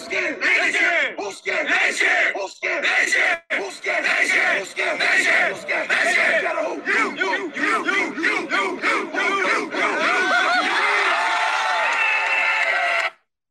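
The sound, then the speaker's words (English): A team's pre-game hype chant is played back through a microphone. Many voices shout in loud, rhythmic bursts, then the chant ends in a sustained group yell before cutting off. “they put something on their Twitters that they did before the game, and it was a little like chant to get themselves hyped up. Will we be able to hear it? Yeah, I'll play it through the microphone.”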